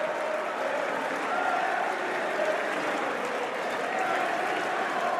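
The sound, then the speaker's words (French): Spectators cheer and applaud at the end of a historic match, producing a continuous, dense roar of clapping and crowd noise that stays loud and even throughout. “Explosion de joie des spectateurs sur place qui ont pu assister à la fin de ce match historique.”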